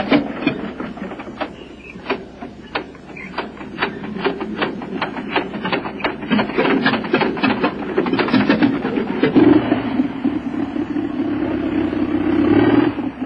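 Farm vehicle engine starting and driving off across a field during spring fieldwork in the Altai, a steady rhythmic chugging knock that thickens into a denser, louder continuous rumble toward the end.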